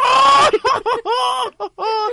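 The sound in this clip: Parakeet calls from a video, a string of harsh, harmonic squawks and chirps in several loud bursts separated by brief gaps, with no other sound.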